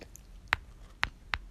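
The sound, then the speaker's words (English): Goldfish crackers crunched between the teeth: three sharp, faint crunches at uneven intervals, with soft chewing noise between them. “which are crunching, so it's delicious. Like, delicious. So have a bite, viewers, of my goldfish.”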